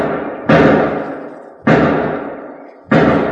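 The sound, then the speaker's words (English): Gunshots from a radio drama sound effect, fired near a shed: three sharp, loud bangs spaced about a second apart, each with a long fading ring, with no voices. “Wait, 5 shots. Sounds like it's over in one of those sheds.”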